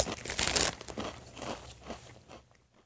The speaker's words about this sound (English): let me give these a whirl. Again, Lay's Game Day chili flavored. That's it, just stops there. I guess it's potato chips.